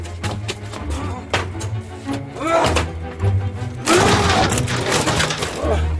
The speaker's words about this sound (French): C'est ici. Enfoncez la porte.